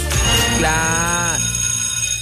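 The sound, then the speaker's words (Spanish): A doorbell or buzzer rings with a single steady, harmonically rich tone. It swells in, holds for about a second, then cuts off abruptly, with no voices over it. “Harto tarde tocó el timbre, vos, tío.”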